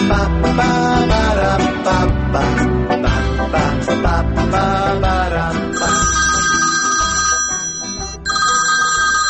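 A melodic telephone ringtone plays loudly and continuously, a dense electronic tune with sustained high tones coming in during its second half, and no talk.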